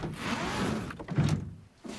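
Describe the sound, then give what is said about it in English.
A small dumbwaiter lift's hatch is opened on a house landing, giving a muffled sliding rumble and a dull thunk, followed by a brief quieter pause and another soft knock. “He wanders along the landing before opening the hatch of a little lift, a dumbwaiter.”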